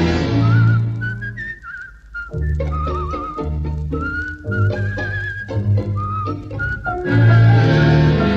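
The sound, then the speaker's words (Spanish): A man whistles a song, a clear wavering melody line with held notes and short pauses between phrases, heard over low, steady tones. “un reo meditabundo va silbando una canción.”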